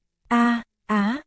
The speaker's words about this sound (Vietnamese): Một tiếng rên rỉ đau đớn phát ra từ miệng Trạm Văn.